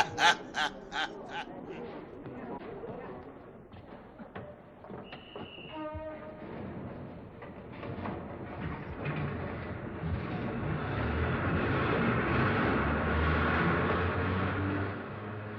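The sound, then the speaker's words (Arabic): A passenger train bound for Bordeaux departs and runs through countryside: a brief whistle-like tone sounds, then a rumble and clatter build and hold steady and loud to the end. “بس القطر هيقوم.”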